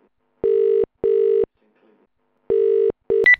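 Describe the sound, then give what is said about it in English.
Ringing tone of an outgoing phone call to reach someone: steady buzzing tones in double bursts, four in all with a pause between pairs, then a short higher beep at the very end. “Just trying to get Tina Bobshaw back on the line. Here we go.”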